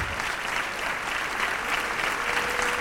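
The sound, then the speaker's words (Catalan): Audience applause follows a gralla procession for the Sant Bartomeu festival in Sitges: a thick, uniform wash of many hands clapping at once, steady in level with no individual claps standing out. “picant de mans al públic.”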